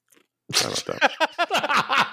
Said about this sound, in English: I just took a sip of water and took a bunch of ice in my mouth